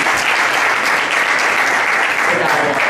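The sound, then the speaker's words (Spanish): Applause greets the mayor of Leganés as he is introduced at a cultural event, a dense, steady stream of many hands clapping that stays loud and even from start to finish. “Un aplauso, por favor.”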